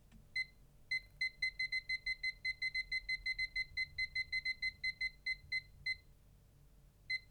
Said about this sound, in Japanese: スマホに測れるアプリを入れているので、これで30分をかけて、これでいける？